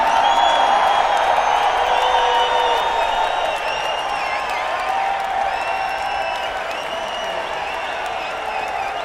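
A Christmas Jam audience applauds and cheers to welcome Warren Haynes to the stage. Dense, sustained clapping is mixed with whoops and whistles and eases slightly toward the end.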